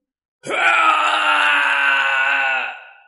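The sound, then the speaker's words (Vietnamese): Mournful wailing scream of a demon ghost: a single loud, sustained cry lasting about two and a half seconds, heard alone, holding steady before fading away at the end. “Tiếng kêu thê lương truyền khắp thiên địa.”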